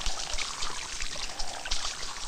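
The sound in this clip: Tea spilling onto clothes in a drama scene: a brief, spattering trickle of liquid that pours unevenly with small splashy bursts, moderately loud.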